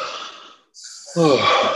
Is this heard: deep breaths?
yes